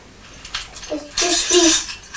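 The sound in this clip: Coins are counted out by hand, a few light metallic clinks, quiet and irregular.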